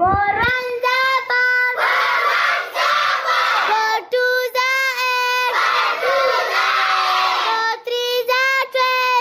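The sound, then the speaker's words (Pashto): Schoolchildren at a community school in Mohmand shout together in loud, chant-like bursts, the high voices rising in unison and breaking off with short pauses between phrases. “تفصیل د مشال ریډیو خبریال شانواز سرگزی راکوي چې د زده کوونکو په اوازونو پیلېږي.”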